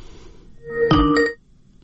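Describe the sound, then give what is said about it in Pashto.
A telephone line tone sounds as a caller's connection drops during a radio call-in. It is a single buzzy electronic burst lasting about half a second, alone against faint background hiss. “زکه چې دغه اوریدونکو د ټلیفون لیکه قطع شوې ده”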